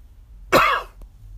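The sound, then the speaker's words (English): A single short, loud cough from someone whose week-old cold has settled into a slight cough, a harsh burst standing alone with a faint click just after. “That cold that I had last week has now turned into a slight cough.”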